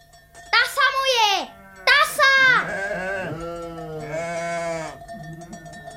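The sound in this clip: Sheep bleating in a flock, several wavering, nasal bleats overlapping one another, some high and sharp, others lower and drawn out, fairly loud over a faint steady background.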